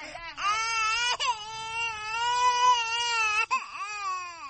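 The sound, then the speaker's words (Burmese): A young child cries loudly in a village while its mother pulls it along. The sustained, high, wavering wails are broken by a few sharp catches of breath. “ငိုနေတဲ့ကလေးငယ်ကိုသူ့အမေကအတင်းဆွဲခေါ်နေပါတယ်။”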